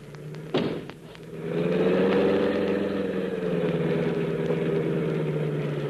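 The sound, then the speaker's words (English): Car engine with a suspected motor fault, running with a steady, droning low-to-mid hum after a single sharp thud near the start. “It feels like something's holding us back. Maybe something wrong with the motor.”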